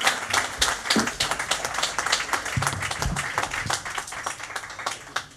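Audience applause at a blues café welcoming the blues band Delta R: a continuous, fairly dense clatter of many hands clapping at steady loudness, with a few brief low bursts rising through it.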